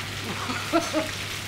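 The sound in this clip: Schnitzels sizzle in a frying pan, a batch of twenty being cooked for a party catering order. A steady, soft hiss of hot fat runs throughout, with a few faint brief tonal blips over it.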